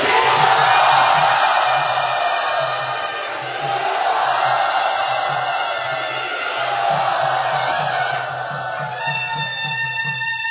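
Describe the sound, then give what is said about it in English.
Loud crowd cheering and whooping as an audience at a devotional gathering welcomes a guest, a sustained, dense roar of many voices over a steady, low rhythmic pulse. “Let us very loudly and enthusiastically welcome him to Sri Radha.”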